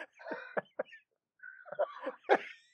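Coughs and throat clearing come from an unmuted call participant with allergies: several short, harsh coughs in two clusters separated by a brief pause.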